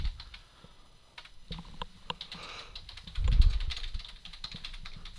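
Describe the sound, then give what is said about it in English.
Typing on a computer keyboard: many quick, irregular key clicks in uneven bursts over a soft low rumble, with a slightly heavier cluster of strikes past the midpoint. “Then that's all we'll type.”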